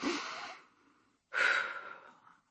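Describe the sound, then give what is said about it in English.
A deep breath drawn in and let out: two long, airy breaths separated by a short pause, the second slightly louder, with no talk. “let's take a deep breath together.”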